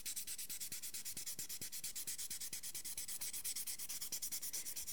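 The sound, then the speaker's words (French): Fine, even hand sanding of the varnish on a lacquered bracelet makes a faint, steady rasp, with many quick, regular strokes repeating in an unbroken rhythm. “brusquer le vernis et d'avoir quelque chose de bien uniforme et de bien lisse. Donc là, on entend que c'est un ponçage régulier et assez fin parce qu'on a déjà une surface qui est plutôt lisse en dessous.”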